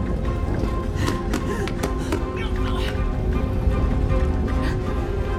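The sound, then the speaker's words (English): Light tapping on a closed door in a trap room as spikes come out of the walls: a few sharp taps over a dense, steady background. “taps on the door in vain”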